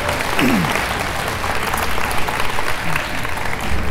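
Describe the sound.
Audience applause: dense, steady clapping sustained at an even level throughout.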